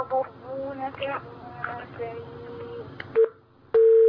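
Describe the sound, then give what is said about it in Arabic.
A telephone busy tone after a call drops: a short steady tone comes first, then a sustained loud tone that runs to the end, following a stretch of speech. “واضح الاتصال انقطع. طيب ده كان آخر اتصال معنا في حلقة اليوم.”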